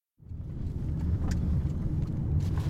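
A car driving, with a steady low engine and road rumble that rises quickly at the start and then holds evenly, a few faint higher ticks above it and no talk.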